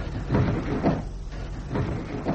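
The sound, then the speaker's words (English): Window blinds are opened with a few muffled knocks and soft rustling slides, each bump standing out from a low, steady background. “I'll open some more blinds to ensure our being pulled in its direction.”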